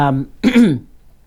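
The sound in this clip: A person clears their throat in a short, loud, guttural burst that follows a brief voiced hum, with no other talk during the sound.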